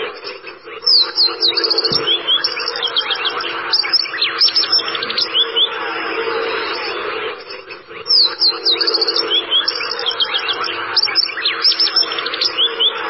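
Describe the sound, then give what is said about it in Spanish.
Shiny cowbird song: a rich, varied stream of quick liquid whistles and chirps, loud and clear, running in repeated phrases of many notes, with no talk. “Entonces, vamos a escuchar primero el chamón.”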